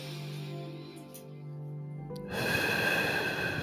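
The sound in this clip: A deep breath is drawn in during a guided breathing exercise, heard as a steady, airy rush of inhalation that starts after a quiet stretch and continues to the end.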